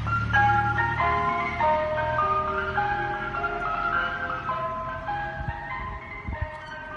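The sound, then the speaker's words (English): An ice cream van in the UK plays its chiming tune, a continuous bright melody of sustained notes held steadily loud over a low rumble, with no voices. “Here in the UK, ice cream vans will usually play a tune to let you know that they're set up and selling ice cream.”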